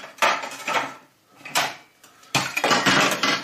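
Clattering of a bowl handled in a kitchen, fetched to hold onion skins and other peelings, in three bursts of knocking and scraping against hard surfaces with quiet gaps between.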